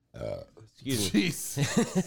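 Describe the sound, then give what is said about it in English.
A voice makes a burp-like noise, a short low croaking belch sound that serves as someone's nickname, followed right away by people talking. “I thought you said they called him Burp. No, like his name was a burp noise.”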